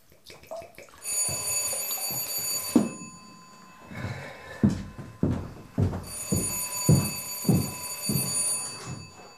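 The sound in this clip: A telephone rings in two long, shrill bursts of bell ringing with a short pause between them. Rhythmic low thuds run underneath throughout.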